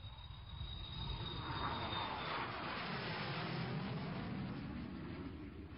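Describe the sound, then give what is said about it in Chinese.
A large passenger airliner taking off from St Petersburg airport, a faint, low rumbling roar that swells and then holds steady. “一架巨型客机准时从圣彼得堡机场飞向墨西哥城。”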